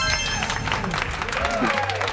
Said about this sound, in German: Dazu Applaus, Klaas.